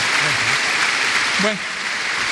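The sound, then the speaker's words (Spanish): A church audience applauds with steady clapping while a voice speaks over it; the applause eases slightly in volume near the end. “Un aplauso al Señor.”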